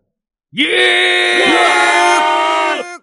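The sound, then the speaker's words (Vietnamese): An earth-shaking scream: one loud, sustained, strongly harmonic voice holds a raw cry for about two and a half seconds, with brief pitch dips near the start, then cuts off. “Tiếng thét long trời lở đất bỗng nhiên vang vọng tinh không.”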